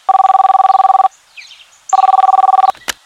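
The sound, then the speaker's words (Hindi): Two bursts of warbling ringback tone from a telephone on an outgoing call, each about a second long and separated by a pause, with a short click at the end. “अबे ये किसको phone कर रहा है?”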